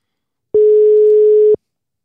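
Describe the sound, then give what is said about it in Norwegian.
A telephone ringing tone on a call being placed: a single steady, pure mid-pitched tone lasting about one second, loud and alone, starting and stopping abruptly. “Nå skal vi ringe til Dagfinn, så får vi håpe at teknikken står oss bi her.”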